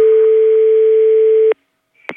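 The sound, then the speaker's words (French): A telephone tone plays as a call is transferred: one steady, loud, continuous tone holds for about a second and a half, then cuts off abruptly into silence before a brief click. “Ne quittez pas, je vous transfère l'appel.”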